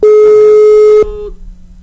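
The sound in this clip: A telephone ringback tone while a call waits for an answer: a single steady, pure mid-pitched tone lasting about a second, then abruptly cut off, leaving only a faint low hum.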